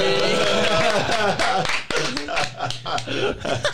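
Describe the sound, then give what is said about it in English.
Hands clap in a quick run of sharp taps mixed with people talking, the claps scattered rather than steady and sitting among the voices. “Hey, let's clap.”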